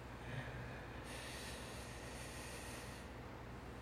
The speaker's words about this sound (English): Listen to your breath. Take a deep breath.